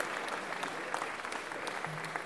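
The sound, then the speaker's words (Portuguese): Audience applause welcoming an arriving guest at a gathering, a dense, steady patter of many hands clapping at a fairly low level and holding evenly throughout, with no clear individual claps standing out. “receba uma salva de palmas do povo da vela, vai.”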